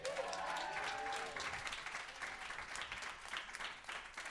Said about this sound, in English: Everybody make a lot of noise for Sashir Zameda.